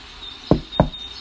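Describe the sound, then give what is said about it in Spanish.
Two sharp knocks on a door at night during a rainstorm, at the house of a hunter, spaced a little apart and standing out clearly against a faint steady background hiss. “Sonó en la puerta. El cazador se extrañó de que en mitad de la tormenta alguien llamara.”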